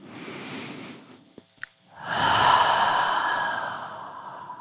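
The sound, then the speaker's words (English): A deep breath drawn in through the nose, then a longer, louder exhale through the mouth during a guided relaxation exercise; soft, airy and unhurried, with a short pause between the two breaths. “We'll take some deep breaths, taking a deep breath in through the nose and then out through the mouth.”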